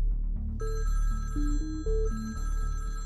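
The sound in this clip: A telephone rings with bright, steady electronic tones in stepping pitches. It comes in two bursts with a short dip between them and no voices.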